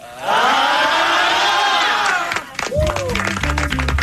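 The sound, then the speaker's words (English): Graduates cheering and applauding a commencement speaker, a loud sustained crowd roar of whoops and shouts with dense clapping continuing throughout. “I would like to say thank you, graduates, for that warm welcome.”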